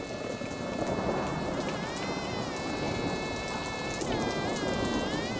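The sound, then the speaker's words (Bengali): Heavy rain pouring down as someone arrives at a wedding house, a dense, even hiss that stays steady throughout, with a sustained high warbling tone layered over it. “বিয়েবাড়িটায় ঢুকতে না ঢুকতেই জোরে বৃষ্টি নামল।”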